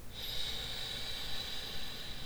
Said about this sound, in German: Nimm einen tiefen Atemzug durch die Nase ein